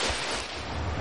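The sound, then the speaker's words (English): Triathlon swimmers churn and splash through water, giving a steady, rushing wash with a low rumble underneath for about a second. “142 hands swimming a triathlon.”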